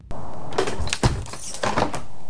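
A window is pushed open with a sustained scraping, rubbing sound and a sharper knock partway through, moderately loud and with no voices.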